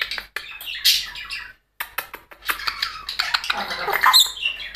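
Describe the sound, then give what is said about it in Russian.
Pet bird chirping and squeaking in many quick, high, bright calls, with a person's voice speaking to it. “Аркаша, хорошая птичка.”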